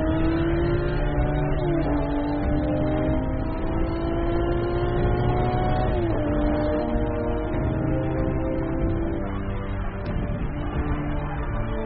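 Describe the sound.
Lamborghini sports car engine revving: a loud, sustained engine drone with a tonal whine whose pitch climbs gradually and then drops abruptly, twice over the stretch.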